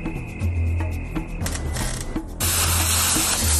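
A golf machine motor fails to start, giving steady mechanical whirring and ratcheting clatter with no speech. A louder hissing rush joins in over the second half.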